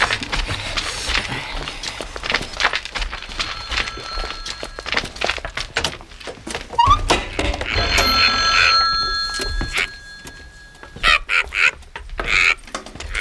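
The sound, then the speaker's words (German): Telephone bell ringing in a caravan to signal an incoming call, its bright, shrill tones repeating several times over a busy background of clattering and knocking noises. “Das rote Lämpchen an unserem Wohnwagen leuchtet. Wir haben einen Anruf.”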